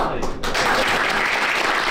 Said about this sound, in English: And a round of applause for the new boss, as Andy Burnham